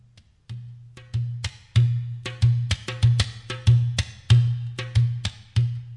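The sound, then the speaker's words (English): A dohola, the bass tabla, is played alone: many booming low strokes with deep ringing resonance, mixed with sharp, crisp slaps in a steady, lively rhythmic pattern. “Then I use the dohola, which is the bass tabla. This is what it sounds like.”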